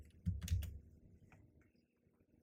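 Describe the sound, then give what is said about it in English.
Keyboard typing as someone enters a Google search, a few faint soft clicks bunched near the start before the tapping fades into quiet. “Hold on. I'm gonna type it into Google and see if this is actually what it was called.”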